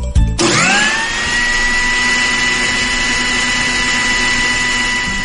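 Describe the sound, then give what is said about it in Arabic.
An electric blender runs with a steady, loud motor whine after a brief start-up burst, holding one even pitch without pause to the end. “هذا صوت خلاط يا صديقي، أو شو يسموه ذا المكسر أو أي كان كذا، خلاط بشكل عام”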